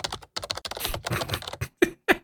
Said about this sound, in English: my microphone is from my keyboard, so me typing sounds like this.